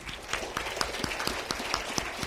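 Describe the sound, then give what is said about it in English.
A church audience applauds fathers standing during a Father's Day service. The clapping is fairly sparse and moderately soft, with distinct individual claps repeating at a steady, even rate. “We'd like to give you a round of applause.”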